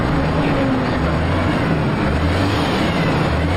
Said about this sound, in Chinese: 开油门开油门